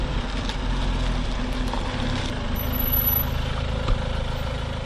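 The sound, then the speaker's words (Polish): A car carrying a mobile chapel idles in a steady, low engine rumble that holds an even level throughout, with no clear talk over it. “gdy zatrzyma się samochód kaplica tutaj przed nami, padnijmy na kolana i witajmy tę, która przyjeżdża”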